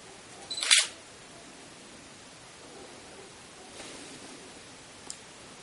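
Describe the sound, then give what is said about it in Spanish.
Camera shutter firing as photos are taken repeatedly of the same spot: one sharp, loud click burst near the start, then fainter clicks later, over a quiet steady hiss. “yo estoy echando todo el rato fotos al mismo sitio”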